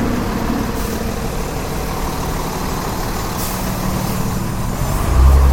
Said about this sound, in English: It's a rice truck